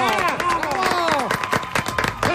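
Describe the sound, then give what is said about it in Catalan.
A studio audience applauds the presenters of a show on its premiere day, with a dense patter of claps running under voices that talk and call out over it. “Vinga, va, si ha arribat el dia de l'estrena, un aplaudiment pel Joel Díaz i el Manel Vidal.”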